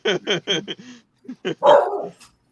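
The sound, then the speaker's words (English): A dog barks in a quick run of sharp barks, pauses briefly, then lets out a couple more barks that end in a longer, drawn-out yowl. The barking is fairly faint. “What the fuck was that? My dog. He has a big mouth. He agreed.”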